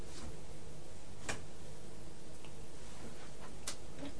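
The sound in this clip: A clock ticking, its soft, sparse ticks sitting over a steady, even background hiss with no voices.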